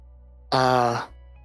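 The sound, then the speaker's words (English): A voice imitates a faint distant groaning during a tabletop fantasy roleplaying game, making a single low, drawn-out moan of about half a second that starts abruptly and trails off, alone against quiet background hum. “groaning sound off in the distance. Mm-mm. So, loud, but you're just hearing the faint end of it.”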